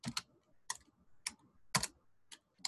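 Typing on a computer keyboard comes through quietly as five brief clusters of crisp key clicks, separated by short pauses, with no voices.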